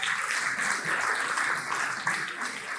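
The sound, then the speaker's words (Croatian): An audience applauds journalists at a marketing awards event, with sustained, even clapping that continues throughout and has a small flare of louder claps near the end. “Aplauz molim vas za naše novinare.”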